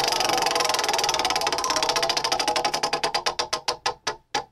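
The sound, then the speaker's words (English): A prize wheel spinning. Rapid ticking starts as a near-continuous rattle, then slows steadily into widely spaced, distinct clicks as the wheel coasts to a stop. “So why don't you go ahead and give the wheel a spin and find out where we're going to today?”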